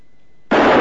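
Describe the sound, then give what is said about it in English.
A single gunshot from a cocked gun fired at tin cans set on posts in a radio drama: near silence, then one sudden loud, sharp crack that holds its harsh noisy roar to the end. “Rance cocks the gun and aims, all nervy and tense.”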